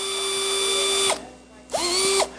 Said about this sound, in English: This screwdriver can drive some serious screws, right?